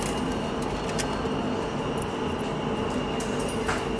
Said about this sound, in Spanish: Viajamos en hora pico en el metro